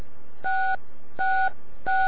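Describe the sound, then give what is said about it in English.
DTMF keypad tone for digit 6, played as a signal to a radio repeater: three steady two-note electronic beeps of equal length, evenly spaced and clear over faint background hiss. “I'll play a 6 and a B now. Here's a 6.”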